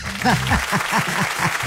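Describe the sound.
Applause: a steady, fairly loud clatter of hands clapping, mixed with short, repeated voiced bursts that pulse in a quick rhythm across the whole stretch.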